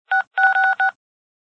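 Touch-tone keypad beeps from a phone pressed in an automated menu while trying to reach an operator: a few short, steady two-pitch electronic tones in quick succession, loud and clean with no talk.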